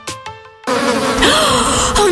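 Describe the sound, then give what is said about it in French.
Wasps buzz from a nest in an attic with a loud, steady drone whose pitch wavers and sweeps up and down. A few short musical chime notes come just before the buzzing. “Chérie, on a un nid de guêpes dans le grenier.”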